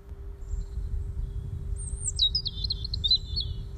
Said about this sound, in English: And I could faintly hear the birds chirping in the trees above me.